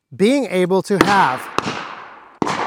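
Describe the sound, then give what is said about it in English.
Gunfire at a shooting range during holster testing: a few sharp, loud reports with ringing tails follow a voice talking at the start. “Oh, by the way, we're at the range now. That's the firing that you can hear in the background.”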